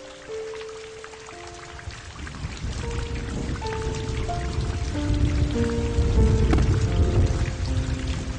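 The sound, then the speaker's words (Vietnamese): Steady rain patters and splashes on surfaces in a dense, continuous hiss that grows slightly louder from the middle to the end. No voices are heard. “Mưa đến nửa đêm còn chưa dứt”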